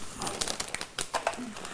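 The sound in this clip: Wrapping paper crinkles and rustles in quick, irregular bursts as a child opens a wrapped package.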